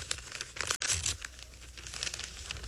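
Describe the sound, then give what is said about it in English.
A heavy birthday card envelope is torn open with crinkly, rustling paper noise, broken by a brief hush before the crumpling tear resumes. “Here, it looks like a birthday card, but it's awful heavy. Must be something in it. I wonder who sent me a birthday card. Well, you'll never know until you open it.”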